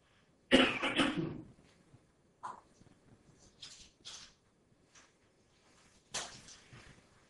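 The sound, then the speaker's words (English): Coughing from a man having an asthma attack: a few harsh coughs, the first burst loud and drawn out, followed by shorter, quieter coughs spaced apart with near silence between. “Excuse me. Getting asthma.”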